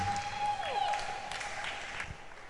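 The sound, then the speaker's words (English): A church audience applauds to welcome the pastor, dense, steady clapping held throughout, with a thin sustained tone running through the first second. “I want you to put your hands together as we welcome our father and our pastor, Pastor Albert Akins.”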